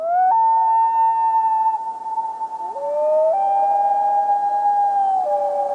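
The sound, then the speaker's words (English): Wail call of the common loon: a loud, long, mournful tone holding steady, then stepping to a lower pitch and rising again, sustained without break across several seconds, with faint upper harmonics and no voices. “That's the whale call of the common loon.”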